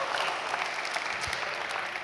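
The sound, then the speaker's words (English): Audience applause for a group member being introduced, a brisk, even patter of many hands clapping throughout with no break. “Are we gonna clap for everybody? If we're gonna do it, we better do it for everybody.”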